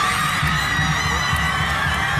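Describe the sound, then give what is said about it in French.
Loud, continuous cheering and shrieking from a crowd of feminist activists celebrating the Argentine Congress legalizing abortion, a dense, high-pitched wall of joyful voices with no pause. “Ces cris de joie, ce sont ceux des militantes féministes.”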